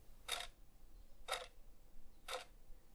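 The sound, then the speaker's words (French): A clock ticks, its hand giving three short, dry ticks evenly spaced about a second apart, faint over a low steady hum. “Parfois l'aiguille est bien rigide, donnant un son sec et court. Parfois, elle semble trembler, comme si elle hésitait entre deux temps.”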